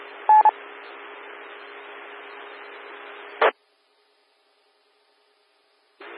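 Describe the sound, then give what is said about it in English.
Touch-tone telephone dialing comes through an amateur radio channel as a couple of brief beeps over a steady hiss. A short burst follows, then the channel falls silent. “And now I'll move on, give him a phone call.”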